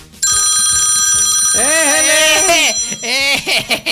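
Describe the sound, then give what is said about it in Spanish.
A phone rings with an incoming call: a steady, high electronic ring tone starts abruptly and continues while a person talks over it. “Entró una llamada, ¿le contestamos?”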